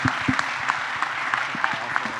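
An audience applauds an event's emcee, a brief, steady patter of clapping without a break.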